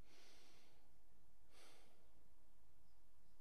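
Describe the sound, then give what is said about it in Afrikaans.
A deep breath in and out, heard as two soft, airy breathy rushes alone in near silence, the first longer than the second, both faint. “So haal weer eens diep asem. Ek doen dit sommer saam met jou.”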